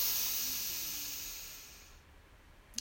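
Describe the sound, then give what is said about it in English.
A single slow, deep breath taken during a guided relaxation exercise: a soft, airy hiss that starts full and fades steadily over about two seconds, then near silence. “One breath in, one more breath in, breathe in,”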